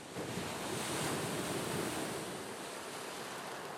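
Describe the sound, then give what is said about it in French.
Sea waves beating against the foot of a cliff, a continuous loud roar of surf with gusting wind noise mixed in, steady throughout with no distinct individual breakers. “Au pied de la falaise battue par la mer, au pied de la falaise qui ne cesse de s'effondrer”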